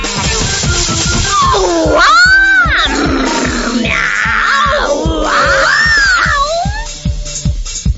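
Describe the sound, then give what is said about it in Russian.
Cats meowing in overlapping, drawn-out calls that bend up and down in pitch, loud above a busy background with a regular low pulse throughout. “Кис-кис-кис-кис-кис-кис-кис. Девочки, начали мяу.”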